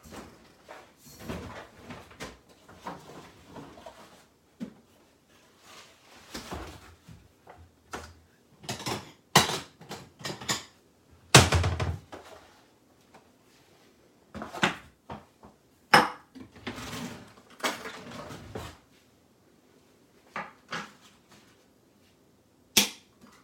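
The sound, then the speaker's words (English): Irregular clinks and clatter of a utensil against a bowl while eggs are mixed for scrambled eggs, with scattered sharp knocks and short pauses, fairly faint overall and no talk. “So I'm just gonna mix up some scrambled eggs here.”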